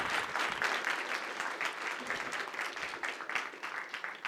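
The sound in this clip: An audience applauds to welcome a lecturer arriving to speak on the Gospels. The clapping is dense and lively and runs at a fairly even level throughout, with small fluctuations in loudness.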